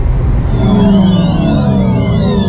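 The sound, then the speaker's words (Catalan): A new electric car's sound: a layered tonal whine that sweeps up and down in pitch over a steady, loud low rumble, heard alone. “És el so del teu nou cotxe elèctric.”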